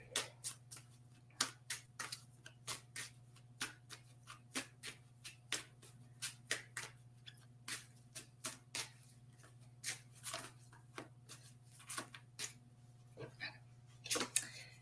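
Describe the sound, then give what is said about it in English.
Oracle cards shuffled and drawn during a New Year, new-moon-in-Capricorn oracle reading: many quick, crisp papery flicks and snaps in irregular bursts, fairly faint, over a steady low hum. “I'm gonna pull a card for you.”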